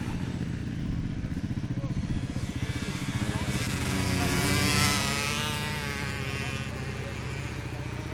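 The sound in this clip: Motocross bikes on an enduro ride roar past in a dense, loud engine rumble that swells midway and then holds steady, with a voice talking over it.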